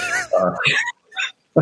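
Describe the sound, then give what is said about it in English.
A cat makes a few short, wavering meows in a room at home, mixed with a person talking. “I'm sorry about the cat. It's just the way it is.”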